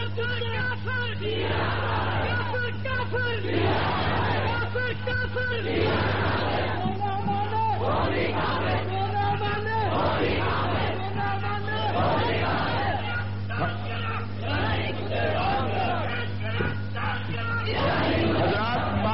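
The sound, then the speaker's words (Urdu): A crowd at a religious gathering chants slogans back in unison, loud repeated voiced shouts in a steady rhythm that runs through the whole stretch, with a constant low hum underneath. “سنیں، نعرہ ایک لگے گا، ایک نعرہ لگا ہے، دوسرے ہاتھ اٹھا کر جواب دے، سب نعروں کے لگ جاتے ہیں،”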